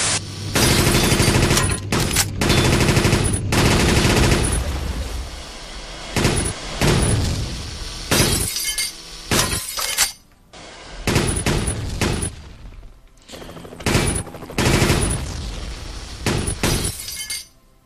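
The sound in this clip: Rapid machine gun fire in many loud bursts of varying length, separated by short pauses, each volley a harsh, crackling stream of shots with sharp high-pitched impacts.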